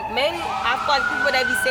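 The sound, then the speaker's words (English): A siren passes outside in a South Central Los Angeles neighborhood, its loud wailing tone climbing and holding steady over a continuous background rumble. “Oop, not the sirens.”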